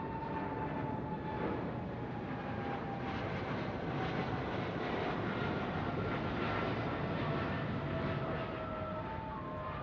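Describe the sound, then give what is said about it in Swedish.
An airliner called the Clipper Made of the Seas takes off at the start of a flight across the Atlantic towards Detroit via New York, its engines giving a faint, steady, even roar throughout. “efter säkerhetsgenomgången klockan 18.25 lyfter flygplanet, som också kallas Clipper Made of the Seas, och påbörjar sin färd över Atlanten mot Detroit via New York.”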